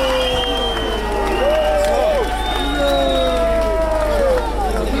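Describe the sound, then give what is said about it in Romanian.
Crowd of several hundred protesters cheering and clapping after a parliamentary no-confidence vote, dense overlapping shouts and applause holding at a steady, loud level throughout. “mulțimea, câteva sute de protestatari s-au întrecut în felicitări”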